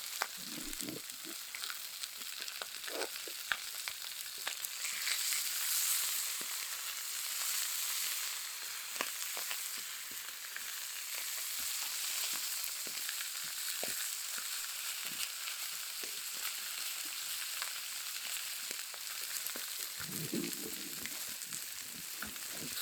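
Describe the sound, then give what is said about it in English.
Skin sears in brown butter in a pan with a steady, fairly quiet hiss and crackle. Scattered pops and sputters run through it from start to finish. “We're gonna let this sear up for a while. Get that skin nice and crispy. But that is what we really want, that nice crispy texture. While it's cooking throughout in this nice brown butter that we have going now.”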